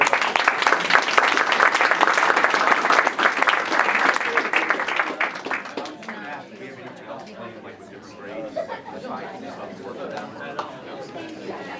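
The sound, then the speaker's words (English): A round of audience applause, loud and dense for about the first half, then thinning out as people start talking and crowd chatter takes over. “Nice round of applause.”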